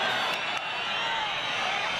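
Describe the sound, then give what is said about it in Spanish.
An audience boos and whistles at a minister speaking about three fallen Guardia Civil officers, a dense, continuous roar of crowd disapproval with faint whistles running through it. “Se ruega a los asistentes que guarden el respeto y la debida compostura. Marlaska reacciona a esos abucheos.”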